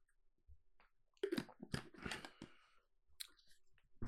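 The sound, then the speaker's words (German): A quick sip of a drink: a few faint slurping and swallowing mouth noises with soft clicks, short bursts separated by quiet pauses, no talking. “Ich trinke kurz einen Schluck.”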